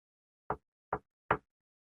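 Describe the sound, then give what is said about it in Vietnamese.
Three light knocks of a hand on a door at the end of a corridor, short dull taps spaced a little under half a second apart, heard alone against silence. “chị Thảo đưa tay gõ nhẹ mấy cái lên trên cửa”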